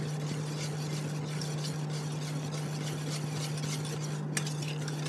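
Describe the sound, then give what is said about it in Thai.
Gel mixed with oil and melted wax is stirred slowly and steadily, giving a continuous soft scraping and swishing texture over a constant low hum, with no talk. “ก็ค่อยๆคนไปเรื่อยๆนะคะ”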